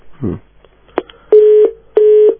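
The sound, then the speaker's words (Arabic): A telephone busy tone after a call is cut off: a sharp click, then two steady, identical mid-pitched beeps of equal length separated by a short gap. “نعتذر من الأخت المستمعة عن قطع الاتصال دكتور.”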